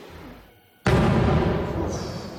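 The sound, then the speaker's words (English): A boom of outgoing artillery in a deserted front-line town: a sudden loud burst that continues as a sustained broad rumble to the end. “The boom of outgoing artillery.”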